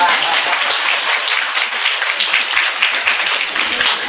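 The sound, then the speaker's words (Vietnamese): Steady applause from an audience at a Buddhist dharma talk, with dense, even clapping that holds at a loud level for the whole stretch without a break, and no voices standing out. “Lần đầu tiên thấy mình như vỗ tay dữ.”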